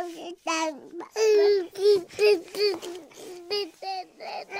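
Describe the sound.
A baby babbling in a run of short, high-pitched voiced syllables separated by brief gaps, some held longer and sliding in pitch. The babbling is clear and alone, with no adult voice over it.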